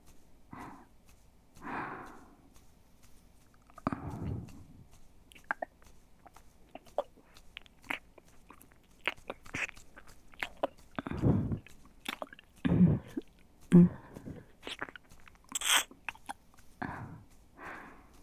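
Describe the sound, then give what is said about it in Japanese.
Wet ear-licking mouth sounds: soft squishy smacks, slurps and clicks come irregularly, with many quiet wet bursts and a few louder ones against a near-silent background. “それでは、耳舐めも合わせてご奉仕させていただきます。”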